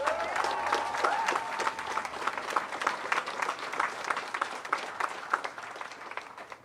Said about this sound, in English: Give yourselves another hand.